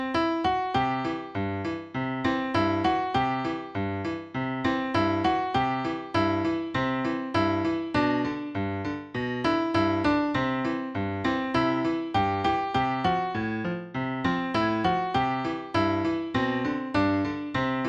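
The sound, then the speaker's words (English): A jaunty ragtime-style melody in Lydian mode, with the F raised to F sharp, played over broken chords in a bouncing back-and-forth pattern. Many steady, evenly spaced notes continue without a break, moderately loud, with no voices. “Now let's put it in Lydian mode, changing that F to an F sharp. And now it sounds like this.”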